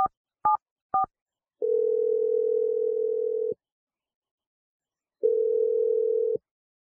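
Telephone keypad tones as a call is dialed: three short beeps, then two long, steady ringing tones separated by silence.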